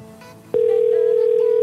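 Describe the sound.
A phone call goes unanswered as a steady, single-pitched telephone tone cuts in abruptly after a brief low murmur and holds, unbroken and loud, to the end.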